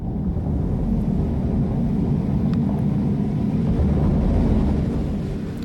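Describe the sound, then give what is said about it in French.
A giant tsunami wave, a wall of water nearly 500 metres high, breaks in a video game where the player faces it on a jet ski, heard as a loud, steady, low roar that holds evenly throughout. “Un gigantesque mur d'eau de près de 500 mètres qui déferle donc face à nous.”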